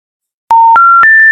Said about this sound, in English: This is a spammy number that texted or called someone that we know.